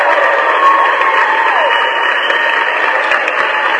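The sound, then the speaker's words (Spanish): Applause from an audience, thanking a friend on a Spanish-language call-in program: steady, continuous clapping that holds an even level from start to finish. “Y un aplauso para mi amigo Helmi, por supuesto, claro que sí.”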